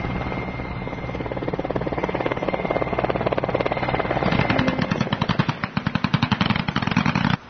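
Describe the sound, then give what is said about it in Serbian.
A military helicopter lands troops in an antiterrorist exercise at an airfield; loud, rapid rotor chopping runs steadily throughout and grows more pronounced and throbbing toward the end. “Usledio je helikopterski desant.”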